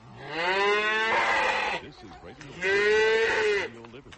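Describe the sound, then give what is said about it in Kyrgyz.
Cattle on a farm at milking time, with calves being tied up, give two long, loud, mooing calls separated by a short pause, with faint rustling between them. “ал кайынэнеси менен музоолорун байлап уй сагганга даярданып атыптыр”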